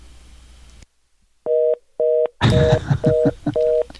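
Touch-tone dialing beeps from a telephone keypad as a number is dialed: a burst of hiss, a brief silence, then five evenly spaced tone bursts, the last three under loud, crackling static noise.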